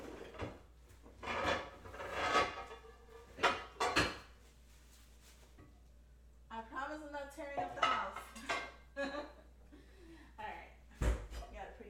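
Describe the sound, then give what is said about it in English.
Dishes and cutlery clink and clatter as a pretty serving dish is taken out. Several sharp knocks and scrapes, including a wooden bump like a drawer or cupboard, come alongside a quietly speaking voice. “I'm gonna get a really pretty dish and then put them on there.”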